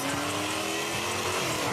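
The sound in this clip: A souped-up Dodge Charger races through downtown Seattle at night, its engine producing a continuous, dense roar with a droning harmonic whine that shifts slightly in pitch throughout.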